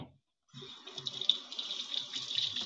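Running tap water splashes as someone washes a small jar in a sink, a faint, steady hiss with irregular splashes that begins after a short silence and continues to the end.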